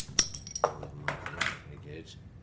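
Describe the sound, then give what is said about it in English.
A bottle of Woodford's Nelson's Revenge ale, a Nottingham ale, is opened with a sharp clink and a few glassy clicks and knocks while people talk quietly. “Nelson's Revenge, that's Woodford's, isn't it? Anyway, well, let's crack that open”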